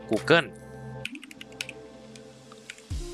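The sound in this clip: Typing on a computer keyboard while entering a search: quick, light key clicks at an irregular pace, with a man's voice heard briefly at the start.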